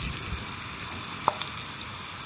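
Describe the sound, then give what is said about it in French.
Leeks fry in hot oil at about 120 degrees, giving a continuous soft sizzling hiss with one sharp pop partway through. “Là, on va mettre les poireaux dans l'huile.”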